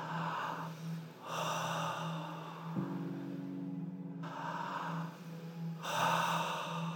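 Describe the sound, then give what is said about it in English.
An audience at a church service breathes deeply in and out, with a few broad, airy rushes of breath separated by short pauses and a steady low hum beneath. “we're going to inhale God's breath. We're going to exhale God's breath. Let's do it two times.”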